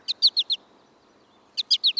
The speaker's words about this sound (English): the flight call of the American goldfinch, potato chip, potato chip.